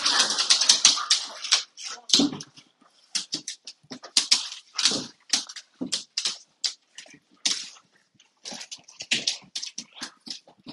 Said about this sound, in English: my dog and my son are having a little scuffle here, and I don't know who's gonna win the scuffle.